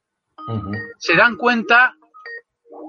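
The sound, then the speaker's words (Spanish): Electronic ringtone of an incoming Skype call, a few short bright tonal bursts mixed in with a man speaking Spanish. “No sé por qué está esto puesto aquí. Nunca me llama nadie por Skype y ahora me están llamando.”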